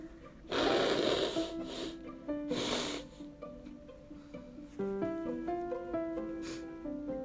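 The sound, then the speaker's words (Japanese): Someone blowing their nose: two forceful, noisy blasts and a few smaller snorts, over steady background music. “ちょっとねごめんなさい、鼻をかませてほしいんですよ。お食事中の方本当にすいません。”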